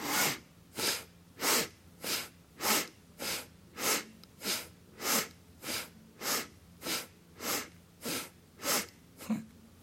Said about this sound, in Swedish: Den här rörelsen ska vi göra lite snabbare så att andningen också blir lite kraftfullare. Så du andas in, händerna i höjd med axlarna, handflatorna fram, andas ut, tillbaka. Låter ungefär så här.